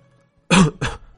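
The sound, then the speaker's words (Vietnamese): A woman gives two sharp, dry coughs in quick succession, loud and alone, the first heavier and the second slightly shorter. “Bích Nguyệt phu nhân không ngừng ho khan.”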